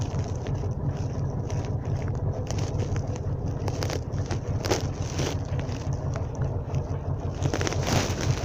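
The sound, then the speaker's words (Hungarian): A tractor engine drones steadily as the tractor drives back, a loud, continuous low rumble that holds level throughout with light wind noise over it. “Az a traktor! Jön vissza, látod, ott van.”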